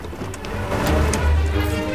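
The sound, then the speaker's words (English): A convertible car speeding up a driveway sends out a steady engine rumble over broad rushing road noise, growing slightly louder toward the end. “Charlie speeds up the drive in his convertible.”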